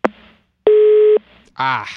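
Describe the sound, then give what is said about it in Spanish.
A busy tone follows a dropped phone call: a single steady, mid-pitched electronic beep lasting about half a second, with a click just before it. A voice begins speaking shortly after. “Se cayó la llamada.”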